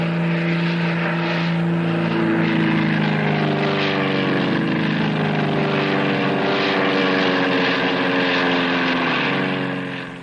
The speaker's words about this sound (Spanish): En el exterior observa las evoluciones acrobáticas de una escuadrilla de cinco avionetas.